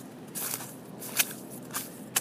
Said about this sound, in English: I'm going to give it a shot and try it out right now. This track is really snowy and slushy. I don't know if you can hear it.